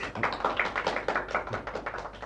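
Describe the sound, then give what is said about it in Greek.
Faint applause, a quick and uneven patter of many claps running without pause through the whole moment. “Εμάς χειροκροτούν? Όχι, αυτόν.”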